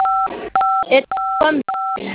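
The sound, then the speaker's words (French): Telephone keypad tones as a star code is dialed: four short, steady two-tone beeps of even loudness, with speech between them. “Maintenant, vous composez étoile.”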